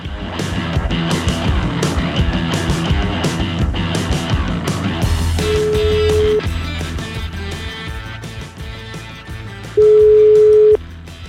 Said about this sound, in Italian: partite con la telefonata, vai.